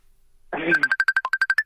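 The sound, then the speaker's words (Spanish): Ringing for an outgoing video call follows a short rustle: a quick run of bright, evenly spaced beeps, nearly all at one pitch, with one briefly lower note. “¿Llamé al hermano? Claro. Videollamada. La videollamada.”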